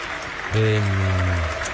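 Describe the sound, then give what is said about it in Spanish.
A stadium crowd applauds through a minute of tribute to a photographer. The clapping forms a steady, dense wash, and a drawn-out, low voiced tone sounds over it from about halfway through. “Minuto de aplauso, dice la voz del estadio, para un gran fotógrafo.”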